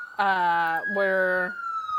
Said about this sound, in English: Whoa, it's the sound of the police.